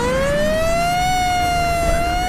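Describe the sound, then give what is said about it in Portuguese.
An ambulance siren wails as the vehicle pulls away with its siren on. It is a single loud, continuous tone that climbs slowly and then holds nearly level, with no voices over it. “E quando vocês se dão conta, a ambulância sai com a sirene ligada.”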